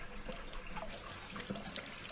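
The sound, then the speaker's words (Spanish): Very hot water being poured, a faint, steady trickling and splashing stream that runs quietly and evenly throughout. “Bien caliente, agua bien caliente, ahí va.”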